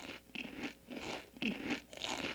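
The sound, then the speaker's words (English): A bite of Cosmo Flakes cereal is crunched in a series of crisp chewing crunches. The quiet bursts come in a fairly regular rhythm, each a short, bright crackle, with no talking. “Listen, how about you try a bowl of Cosmo Flakes right now and see for yourself?”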